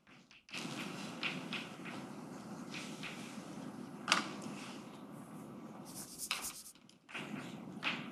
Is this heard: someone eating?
no